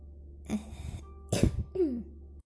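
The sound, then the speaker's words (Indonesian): Coughing is heard as a few quiet, rough bursts from the throat with a short throaty trailing sound. Each burst is brief and separated by short gaps. “Maaf, tadi batuk.”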